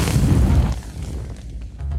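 A deep explosion boom, standing in for a nuclear blast from a gun-type uranium bomb in which one half of the charge is fired into the other. A heavy low rumble fills the first part, thins out, then swells slightly again at the end.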